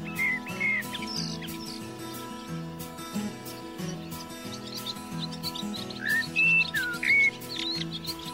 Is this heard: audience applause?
no